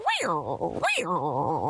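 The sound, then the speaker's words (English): A person's voice imitates a tiger growl: two rough, throaty roars in a row, each swooping up and then down into a wavering, rumbling tail. “Had to give a good old tiger growl.”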